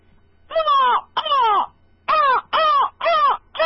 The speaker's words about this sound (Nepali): काग कराउँछ